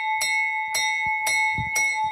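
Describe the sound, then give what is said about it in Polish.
A fire brigade bell rings with four bright, evenly spaced clangs about half a second apart. A sustained metallic ringing tone holds steady between the strikes. “czy uruchomić dzwon strażacki.”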